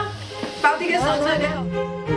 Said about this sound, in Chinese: 新腌制的酸菜终于亮相，切丁后以清油翻炒，水分蒸发，口感脆爽，香气增强